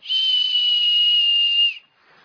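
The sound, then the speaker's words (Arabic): A person whistles one loud, steady high note, held evenly for under two seconds, then cut off into near silence. “مش انا لما حد بيصفر بيعمل كده،”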